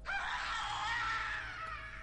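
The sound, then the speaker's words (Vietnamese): A long, shrill scream comes from the door at night. It rings loud and sustained for about two seconds, then eases slightly toward the end. “Tiếng thét vắng trời từ phía cửa, lại thêm tiếng gầm gừ trầm âm như là từ địa ngục vậy”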